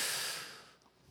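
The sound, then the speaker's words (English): A deep breath drawn in, one long airy hiss that starts strong and fades away over about a second, heard alone. “I want you to breathe in with me. Ready? Everyone, breathe in, breathe in.”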